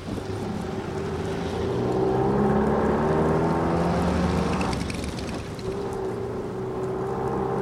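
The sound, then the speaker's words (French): Heavy evening car traffic in a winter storm near the Opéra in Paris: a loud, steady drone of engines and rumbling tyres that swells and eases slightly, with no talk. “Parvenir à se faufiler au milieu d'un tel flot de voitures, c'est une performance.”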